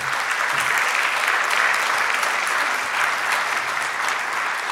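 Audience applause welcoming the chief executive of a victim support charity in Northern Ireland onto the stage at an event, a dense, steady wash of clapping held at an even level from start to end, with no talk over it.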